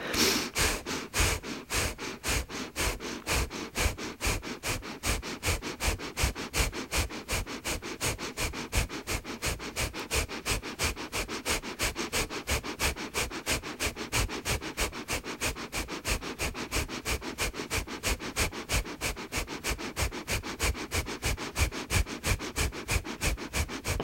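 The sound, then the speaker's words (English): Rapid, rhythmic nasal breathing, in and out through the nose, repeats steadily as many quick sniffing breaths at an even pace, fairly loud and alone, with no talk. “Gently start your breathing in and out through your nose. And then increasing to a pace that's comfortable for you, keeping your breath in the belly.”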